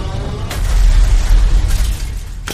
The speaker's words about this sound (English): Do you mind explaining to me why the station just exploded?